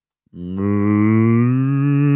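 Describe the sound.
A cow moos once, a single loud, low, drawn-out call that starts abruptly and holds a steady, richly harmonic tone for nearly two seconds with nothing else around it.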